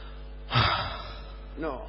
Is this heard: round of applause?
no